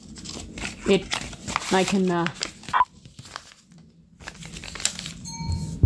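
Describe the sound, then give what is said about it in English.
Paper money folded by hand, with crisp crinkling and rustling that comes in a few bursts while a person talks. “And I fold my money, by the way. This way,”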